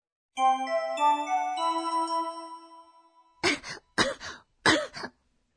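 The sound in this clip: Three short, harsh coughs from a patient with a fever at a doctor's visit come in quick succession after a brief, bright chime melody fades out.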